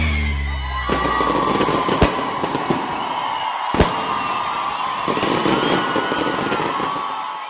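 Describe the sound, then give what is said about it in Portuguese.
Fireworks go off in a dense, steady crackle. A few sharper, louder bangs punch through it, and the noise stays fairly loud throughout. “Escuta aí o barulho do fogo.”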